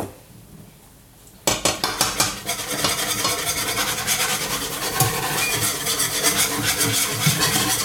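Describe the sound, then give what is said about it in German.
A spoon stirs flour into a pot on the stove. A short quiet stretch gives way to a few sharp clinks, followed by steady, rhythmic scraping and clattering of metal against the pot. “So, und immer schön rühren, damit das nicht klumpt nachher.”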